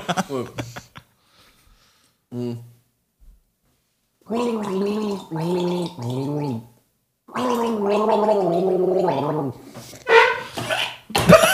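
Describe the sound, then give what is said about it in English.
A person gargles a song, producing a few voiced, bubbling sung phrases with clear pitch, separated by short silences, with some brief noisy bursts between them. “I am the gargle master, man. Yeah. It's just sad. The gargle-oki champion by 2 years running.”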